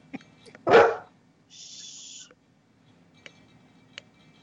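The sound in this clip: A dog gives a single loud, sharp bark, followed by quiet with a few faint clicks.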